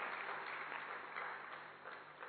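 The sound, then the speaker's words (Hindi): Applause welcoming the honoured guests at a gathering: a steady wash of many hands clapping together, moderately loud and unbroken, slowly easing toward the end. “सभी का बहुत बहुत जोरदार तालियों से हम सभी अभिनंदन करते हैं।”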